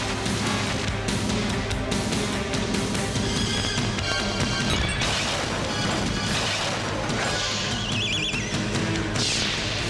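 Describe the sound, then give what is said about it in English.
Loud crashing and booming effects from an arena animation in which the Pistons' car-horse hybrid shoots lasers at the Vancouver Grizzlies logo, which wobbles and dies. The sound is a dense, continuous barrage of impacts that stays loud throughout. “the Pistons have this weird combination of a car and a horse that shoots lasers at the Vancouver Grizzlies logo that then like wobbles around and sort of dies.”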